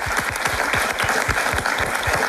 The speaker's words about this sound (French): Mais je propose qu'on applaudisse tout le monde, hein, puisque tout le monde est réuni ici, à cet hôtel de ville de Ciné.